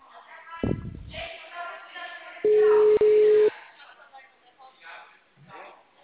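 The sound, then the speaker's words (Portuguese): A telephone busy tone follows a dropped call: a steady, mid-pitched beep of about a second, split by a tiny gap, with people talking over the phone line before and after. “a ligação caiu”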